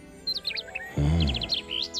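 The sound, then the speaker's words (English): High, bright bird chirps from a bird perched on a winged lion statue come in two quick clusters, with a brief low tonal swell between them. “The bird perches on a statue of a winged lion.”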